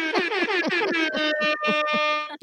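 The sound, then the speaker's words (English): Hip hop air horn sound effect: loud, brassy blasts in a rapid staccato series that settles into a steady pulsing run before cutting off abruptly. “And be prepared to receive blessings via hip hop air horn.”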